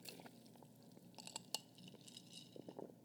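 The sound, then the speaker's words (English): Faint clinks and light scrapes of a spoon stirring a watered-down matcha drink in a glass, quiet and irregular. “My matcha is, you know, becoming watered down. Give it a good stir, you know.”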